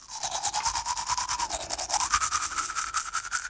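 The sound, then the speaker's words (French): Teeth are brushed with a toothbrush before bedtime, a fast, even run of many scrubbing strokes with a bristly hiss and a steady back-and-forth rhythm throughout. “Le soir, avant de dormir, je me brosse les dents.”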